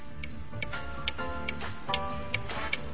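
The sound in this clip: Clock ticking in a battery advertisement, a steady series of crisp, regular ticks over a continuous background sound.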